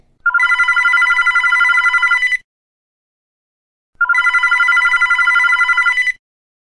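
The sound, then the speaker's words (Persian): A telephone rings in two long bursts of rapid, bright trilling, each about two seconds, separated by a gap of silence. The rings are loud and clear with no voices. “نیم ساعت بعد زنگ زد.”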